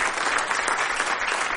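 Audience applause for the workers behind a Harvest Festival: a short, dense, steady burst of many hands clapping at an even loudness.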